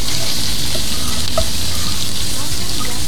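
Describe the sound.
Food fries and is stirred in a pan, a loud, constant crackling sizzle with faint scraping from the stirring running unbroken from start to finish.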